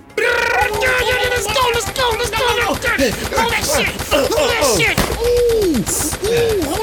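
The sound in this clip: Gunfire in a shooter video game: many sharp shots in rapid bursts and volleys, loud throughout, mixed with excited talk from the players.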